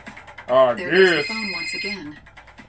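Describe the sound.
A telephone rings with a steady, high electronic tone, partly masked by a louder, wavering voice-like sound over it.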